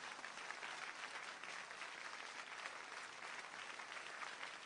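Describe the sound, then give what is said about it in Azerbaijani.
Audience applause for a professor after his lecture in a city hall: a faint, even wash of many clapping hands that holds steady throughout without breaks. “Professoru bir də alqışlayın.”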